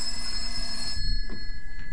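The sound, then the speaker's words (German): A telephone bell ringing at a police station: a steady, bright metallic ring that cuts off about halfway through, leaving only faint low noise. “Ach, dieses Telefon ist wirklich eine Nervensäge.”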